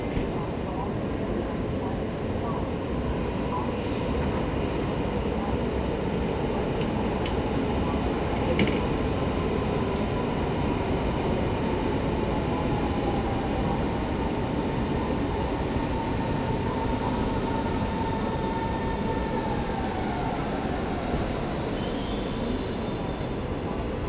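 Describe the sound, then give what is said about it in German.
A train pulls in to platform 12 at a main railway station in Berlin, with a loud, steady rolling rumble throughout and a faint high tone gliding downward as it slows, plus a few brief clicks above. “an Gleis 12, willkommen in Berlin Hauptbahnhof.”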